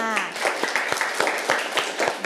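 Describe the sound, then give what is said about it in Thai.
Scattered clapping from a class applauding student group 5 after its presentation, with a few sharp claps in an uneven rhythm and a brief voice at the start. “ปรบมือให้กับกลุ่มที่5ด้วยค่ะ”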